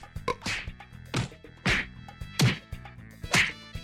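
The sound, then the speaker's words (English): Someone is being hit, a series of sharp, loud whacks landing about once a second with short quiet gaps between them. “Stop! Stop! Why are you hitting me? Please stop!”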